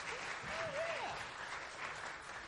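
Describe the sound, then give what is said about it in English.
An audience at a live comedy show in Los Angeles applauds, a steady, dense patter of clapping that stays fairly faint and even throughout. “Let's give it up for Parker, everybody.”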